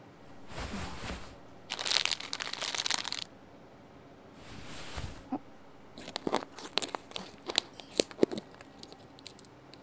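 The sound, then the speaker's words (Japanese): Package of sugar being opened for making caramel candy: a few separate bursts of crinkling, tearing noise followed by scattered sharp clicks and rustles, all fairly faint. “続いて本日の主役、白い粉を開封だ。”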